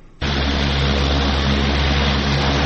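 An airplane lands at an airport bordering homes, a loud, steady engine roar with a deep low rumble that starts abruptly and holds for nearly three seconds.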